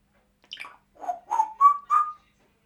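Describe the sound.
Pet parrot whistling five clear notes, the first sliding down from a high pitch, the next four shorter and steadier, each a little higher than the one before.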